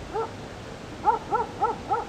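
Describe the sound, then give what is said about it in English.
Five short, tonal yelps from dogs vocalizing: one isolated call, then four in quick, even succession, each arching up and down in pitch and fairly faint against a quiet background. “Especially in these dogs expressing themselves.”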